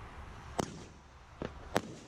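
A firework cake fires its three-shot finale as three sharp, faint bangs at uneven spacing, the last two close together, with no voices in between.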